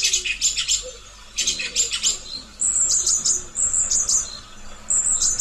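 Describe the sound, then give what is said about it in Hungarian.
Song thrush singing: short bright phrases of high chirping notes, repeated several times in quick succession, clear and fairly loud against a quiet background. “Hallgassuk meg tehát az énekes rigó énekét.”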